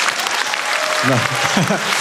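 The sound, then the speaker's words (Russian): Comedy club audience applause, a loud, continuous spread of clapping, with a man's voice starting to speak over it in the second half. “Вы хлопаете, как мой риэлтор прям.”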